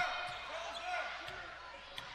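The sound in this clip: A basketball being dribbled on a court in the final seconds of a game, with a few faint thuds under ongoing commentary.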